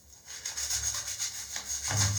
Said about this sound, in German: Und dann packt ihr das eigentlich letztendlich einfach nur auf die Fugen drauf. Und dann wird geschrubbt.